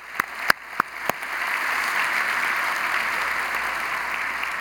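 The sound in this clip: Applause from a church audience, opening with about four separate claps that quickly swell into steady, dense clapping, which stays loud and even until the end.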